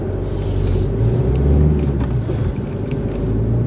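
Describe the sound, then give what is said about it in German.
Car driving off, its engine giving a steady, loud low rumble that holds evenly throughout with no talk. “So. Jetzt fahren wir mal weiter.”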